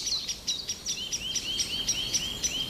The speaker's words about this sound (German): Ja, dieses Heftige ist eine Singdrossel, die aufgeregt ist wegen irgendwas. Oder ist es doch eine Amsel?